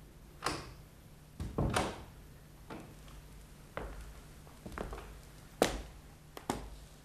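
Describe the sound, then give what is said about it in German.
A door being shut, heard as a few faint wooden thuds and clicks scattered over a quiet background hiss. “Machen Sie die Tür zu.”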